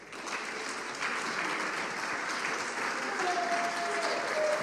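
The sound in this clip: Sustained audience applause greets a guest speaker; dense, even clapping stays steady throughout and swells slightly toward the end.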